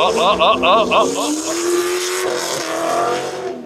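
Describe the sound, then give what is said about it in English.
A car engine revs hard through loud exhaust pipes, opening with a few quick rev bursts, then a sustained growl that climbs in pitch and holds loud. “come on, rev it a little bit more. Let's hear it. There we go.”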